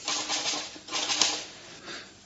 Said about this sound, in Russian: Я сижу в большой неуютной комнате Лапшина, перестукивая на пишущей машинке ищирковую рукопись.